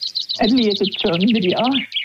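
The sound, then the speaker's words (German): A chaffinch sings a rapid, high trill of repeated notes that ends in a lower flourish, while a voice talks underneath. “Ja, so tönt der Buchfink.”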